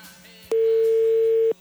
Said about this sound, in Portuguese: Deixa eu tentar ligar pra esse cara, vai.